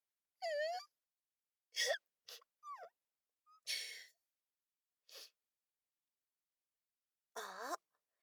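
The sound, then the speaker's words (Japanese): A voice puts on theatrical fake crying: several short whimpering, sobbing bursts with a wavering, falling pitch, separated by silent pauses. “後輩くんってば、ちょっと呆れてるでしょう。絶対嘘泣きだって思ってる顔してるもん。”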